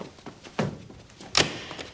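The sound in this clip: A door being shut lands as a dull thunk, followed a little later by a second, sharper knock. Both are short impacts over a quiet background.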